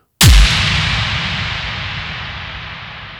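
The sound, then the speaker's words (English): An airstrike sound effect layered into a song hits as one sharp, heavy blast with a quick low downward sweep, then trails off into a long, slowly fading hiss and rumble. “This one plays right at the first chorus, and it's entitled Airstrike.”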